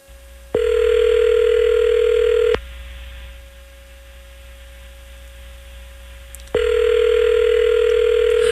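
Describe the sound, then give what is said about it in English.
Steady telephone dial tone heard while a call is being dialed, a loud, constant hum-like pitch that sounds for about two seconds, stops for several seconds of faint background hum, then returns just as loud. “So what I'm doing is I'm dialing George.”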